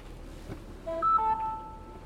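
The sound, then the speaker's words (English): A mobile phone beeps inside a car stuck in traffic: a few short electronic tones step upward, then one steadier tone holds. The beeps are clear over a low, constant background hum. “And that was my phone just beeping.”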